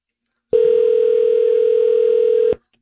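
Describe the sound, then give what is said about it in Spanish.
A telephone dial tone: one steady, even hum that starts abruptly, holds for about two seconds and then cuts off cleanly, with no talking or keypresses. “Marcando.”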